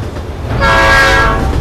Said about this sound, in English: As night falls, a train passes, headlights blazing.